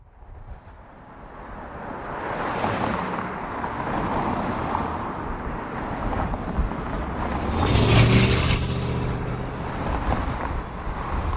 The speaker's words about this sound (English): That is the sound of Lincoln Boulevard, a thoroughfare on the west side of Los Angeles. The fact that you can hear more cars whizzing by is actually a testament to how much less traffic there is in this notoriously gridlocked city.